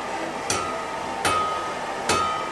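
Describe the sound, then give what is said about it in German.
Blacksmith hammering in a museum smithy: three evenly spaced metallic hammer blows, each with a short ringing tone, over steady background noise. “Gleich gegenüber ging's robuster zu. In der Schmiede wurde ordentlich gehämmert.”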